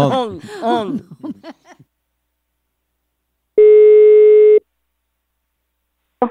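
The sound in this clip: A telephone call tone sounds once, steady and held for about a second, while a prank call is being placed. Voices talk before it, and another short sound starts at the very end.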